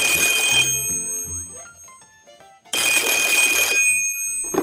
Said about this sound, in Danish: Morten, og ved siden af mig står den allerede legendariske røde og stor blinkende vittighedstelefon, der tager imod opkald fra hele landet. Og der er allerede en fisk på krogen.